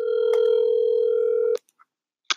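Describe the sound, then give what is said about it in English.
A telephone dialing on speakerphone: a steady, loud dial tone holds for about a second and a half, then cuts off, followed by a couple of short, brief tone blips in the quiet. “So we're going to go ahead and dial her up and put her on speaker.”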